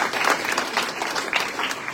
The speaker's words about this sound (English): These people deserve a round of applause. That really takes courage and humility.